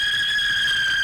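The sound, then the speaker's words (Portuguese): A hawk's screech: one shrill, high squeal held at a steady pitch from start to finish, loud and alone. “Olha o Gavião cantando.”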